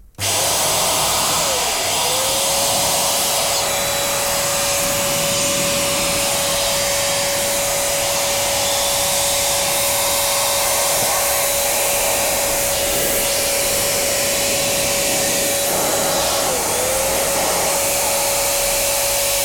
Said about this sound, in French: Et maintenant, on va prendre notre appareil et puis pulvériser de l'air pour faire sortir